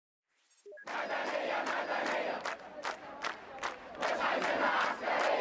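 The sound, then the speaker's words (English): Thousands of activists chant in unison in Cairo's Tahrir Square. The loud chorus starts almost at once and keeps up a steady, pulsing rhythm of shouted syllables to the end. “If that sounds familiar, it's no surprise. That's the sound of activists, thousands of them, in Cairo's Tahrir Square.”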